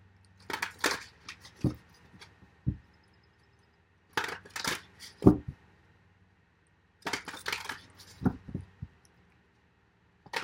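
Tarot cards being shuffled, heard as three separate bursts of crisp papery riffling and small clicks with quiet pauses between them. No voices are heard.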